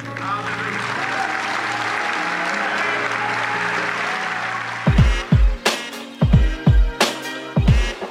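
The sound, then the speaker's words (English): Applause from an audience giving a standing ovation: dense, steady clapping holds for several seconds before thinning out into scattered, separate bursts. “So right now, I ask everyone to stand to their feet and give Sister Carolyn a standing ovation.”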